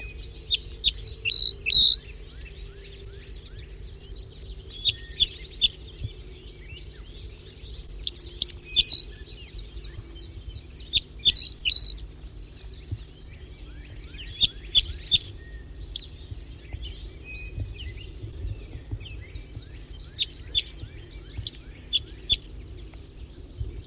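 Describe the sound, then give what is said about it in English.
Bird calls and chirps: short, high, bright chirps in repeated clusters across the whole recording, some quick trilled runs, over a steady low hum. “So recording bird L6.”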